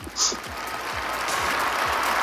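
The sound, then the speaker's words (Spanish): A gathered crowd in St Peter's Square applauds after the Easter Sunday Urbi et Orbi blessing, with a steady, even wash of clapping throughout. “Y esos aplausos de toda la gente allí congregada”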